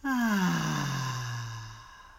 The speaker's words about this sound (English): So deep breath in, extending your belly. And out.